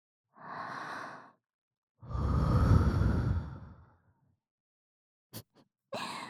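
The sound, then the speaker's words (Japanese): Warm breath blown into a sensitive ear, two long soft breathy exhalations followed by a few short puffs of air, alone with no talk. “例えばこのように、勇者様の敏感な耳の穴に温かい吐息を吹き込んでみたり、”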